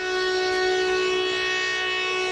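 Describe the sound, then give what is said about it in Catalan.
Ship sirens blare from Catalan fishing ports in a protest against an EU plan that limits bottom trawling. One loud, steady, harmonic-rich tone holds at a constant pitch without a break. “Les sirenes han sonat aquest dimarts als ports catalans per protestar contra el Pla d'Acció Europeu per preservar la biodiversitat del mar, limitant la pesca d'arrossegament.”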